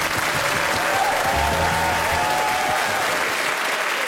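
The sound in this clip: Audience applause welcoming the host, a dense, steady wash of clapping that stays loud and even for about four seconds with no voices standing out.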